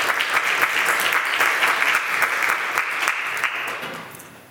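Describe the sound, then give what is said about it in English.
Audience applause welcomes guests onto a stage, with brisk clapping and a few sharper bursts holding strong before fading away in the final second. “Can you guys give it up to these guys?”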